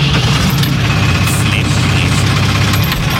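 A vehicle engine rumbles steadily as it drives out onto a farm field on the way to flame weeding. The drone is constant, low and vibrating, and stays level throughout.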